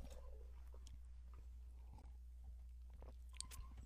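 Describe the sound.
Someone chews food coated in a spicy green sauce, making faint, irregular wet mouth and crunching sounds over a steady low hum.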